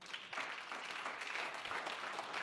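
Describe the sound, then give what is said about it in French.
A church audience applauding during a sermon, acclaiming the Lord. The steady, continuous clapping is fairly faint and holds an even level throughout, with no distinct voices rising above it. “Quelqu'un acclame le Seigneur.”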